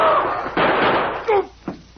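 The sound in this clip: Gunfire in a radio drama: a few sharp, loud bangs burst out in quick succession, mixed with brief voice sounds.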